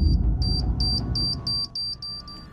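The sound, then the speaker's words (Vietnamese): Electronic beeping from an alarm: a high, steady tone pulsing many times in quick, even succession, fairly loud and with no voices. “giật bắn mình bởi âm thanh tít tít bỗng từ đâu vang lên liên hồi”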